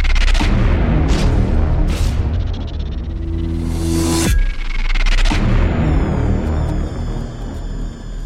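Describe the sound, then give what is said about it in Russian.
Sudden explosions go off one after another, several heavy, loud booms in quick succession with rumbling noise between them, and no voices. “Внезапно возле разделяющей мир людей и вееров грани начались спонтанные взрывы, один за другим.”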